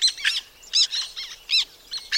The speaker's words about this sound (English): surveying birds that live in Canada's southern plains, like these black terns